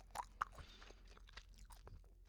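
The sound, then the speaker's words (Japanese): Gum is chewed right up against the microphone, making faint wet smacks and small clicks in an irregular rhythm. No talking is heard over it. “マイクをあなたと思ってガム噛んでるから。”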